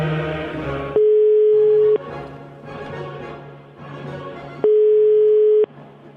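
The ringing tone of a prank phone call sounds as two steady, mid-pitched tones of about a second each, separated by a long gap, over a continuous murmur of other sound.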